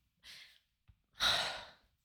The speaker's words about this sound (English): No, I just can't catch my breath.